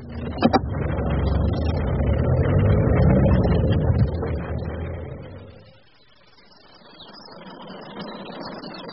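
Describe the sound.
Rumbling car engine as the vehicle drives on: a broad, low drone that swells, then fades to near quiet around six seconds before a softer background sound returns.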